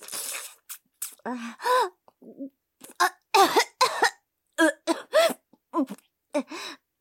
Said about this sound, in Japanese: ちょっと、むせただけだよ。なんでもねえよ。